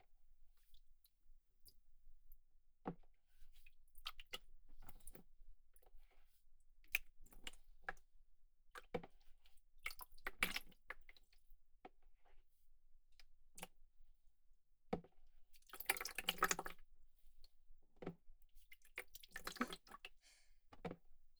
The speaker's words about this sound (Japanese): 髪をお湯で濡らしていきますね。